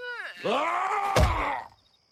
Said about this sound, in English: O bashes Marlac's head with a stick and knocks him out. Nice whack on the head.